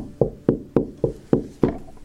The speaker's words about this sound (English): Suddenly, there was a knock at the door.